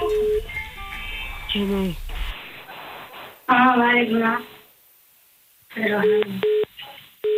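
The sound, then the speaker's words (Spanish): Telephone dialing tones from a phone being used to call someone back, heard as a few bursts of bright electronic beeps with pauses between them, with voices talking in places. “A ver, que estamos marcando otra vez.”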